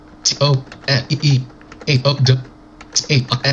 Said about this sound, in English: Okay, I just typed in a sentence, and I'm going to up arrow.